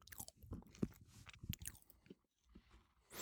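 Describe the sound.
Someone chews a shortbread biscuit, making many faint, irregular crunchy bites and chewing sounds in uneven bursts, with no talking.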